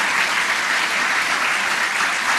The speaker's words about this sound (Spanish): El aplauso para el compañero.